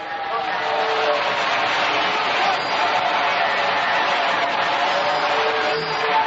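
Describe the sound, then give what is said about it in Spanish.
Church audience applauding in a sustained ovation, a dense, steady wash of clapping that stays loud and even from start to finish. “Sigue aplaudiendo. Una ovación ahí grande para el grande de los grandes, Jesucristo.”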